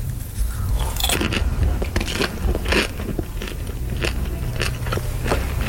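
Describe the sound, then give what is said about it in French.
Someone eats popcorn in many crunchy bites. The crisp cracks and chewing are loud and close, arriving in irregular, overlapping bursts with no talking. “En vrai, je fais ça parce que je voulais vraiment goûter ton popcorn.”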